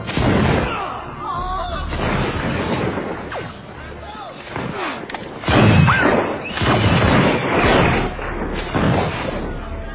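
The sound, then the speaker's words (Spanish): A gunfire volley as guards open fire on an advancing crowd of Madrid townspeople: heavy booming shots and crashes rolling on for about ten seconds, mixed with voices. “Los guardias están decididos a hacer fuego. Los madrileños avanzando. Finalmente, el oficial da la orden fatídica. ¡Fuego!”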